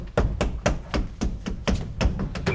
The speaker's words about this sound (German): klopfen Sie die Rückwand des Schrankes ab hier, ja?